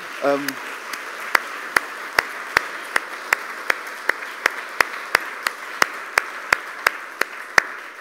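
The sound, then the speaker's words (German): Church audience clapping at an Advent service, a steady rhythmic beat of many sharp, evenly spaced claps in unison after a brief voice at the start. “Ein Applaus bitte mal für diese”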